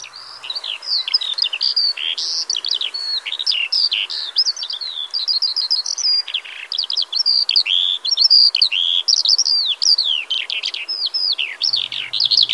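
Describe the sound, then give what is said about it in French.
A skylark sings above its territory in Île-de-France, pouring out a loud, unbroken stream of rapid, high, warbling chirps and trills. “là, il est en train de chanter au-dessus de son territoire. Et son territoire, c'est l'Île-de-France. Et ce qui est amusant, c'est qu'une alouette d'Île-de-France, elle n'a pas la même voix qu'une alouette bretonne.”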